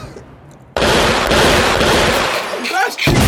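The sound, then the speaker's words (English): Gunshot sound effect: a sharp, loud onset that breaks into a sustained, roaring noise lasting over two seconds, dipping briefly near the end before surging again. “I need this gunshot. Damn it.”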